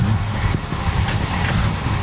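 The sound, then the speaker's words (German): Steady low engine rumble from a 1960s Mercedes 230S W111 car without a catalytic converter, an even, continuous drone with no distinct peaks or changes throughout. “Ich durfte nämlich letztes Jahr mitfahren in dem 60er Jahre Mercedes von dem Hammer Alex Schulz.”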